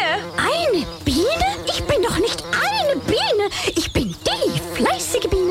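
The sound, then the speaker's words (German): A bee buzzes loudly, its wavering tone swooping up and down in pitch almost continuously for several seconds. “Eine Biene.”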